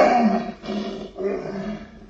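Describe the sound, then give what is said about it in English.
An untrained lion roars in a few deep, rumbling, growling bursts that run close together with brief dips between them, loud and alone. “Except for the occasional roar of protest that comes from the throat of Sultan, the untrained lion”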